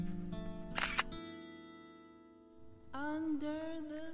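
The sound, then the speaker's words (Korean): A camera shutter snapping as a photo is taken before a rental car is returned, a quick double click over a sustained tonal musical background that fades out and then returns. “그럼 반납하기 전에 사진이나 한 방 더 찍어 놓을까?”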